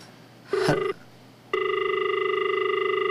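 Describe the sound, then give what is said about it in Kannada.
Phone call disconnecting on a phone-in line: a short tone burst, a brief pause, then a steady, slightly pulsing electronic tone that holds to the end. “ಕರೆ cut ಆಗಿದೆ, ಕರೆ cut ಆಗಿದೆ.”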